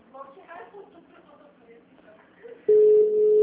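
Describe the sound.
A steady phone line tone on a VoIP call cuts in abruptly after a stretch of talk and holds one even, unbroken pitch loudly to the end.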